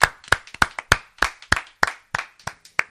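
Sparse, sharp handclaps from a few people mark the end of an evening gathering, falling in a fairly steady, unhurried rhythm of separate distinct claps.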